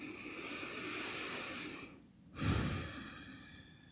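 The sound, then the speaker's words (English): Deep breathing during a guided meditation: a long, airy, breathy exhale, a brief quiet gap, then a second fuller breath with a heavier low rush, steady and moderately loud with no talking. “just close your eyes for a moment or just to turn your eyes inward, even though they are open, and then just take a couple of deep breaths.”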